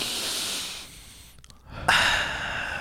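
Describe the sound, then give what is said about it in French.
Deep belly breathing: a long breathy hiss of air, then a brief hush, then a sharper, louder breath that trails on as steady airflow, with no talking. “Respire, respire”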